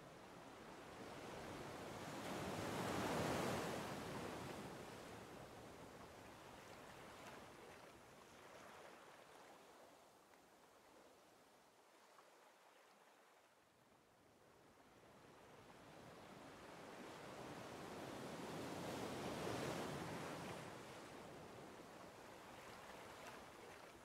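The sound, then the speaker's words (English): Slow ocean waves wash onto a sandy beach of fine grains, soft and hushed, with one broad surge swelling early, a quiet lull in the middle, and a second surge building near the end. “listening to the soothing and very relaxing slow waves washing up on the fine grains of sand that you also feel beneath your feet.”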